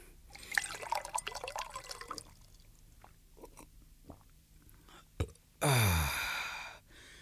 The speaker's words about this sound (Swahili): Ah, sawa basi, tupumzikeni ili tupate kunywa maji.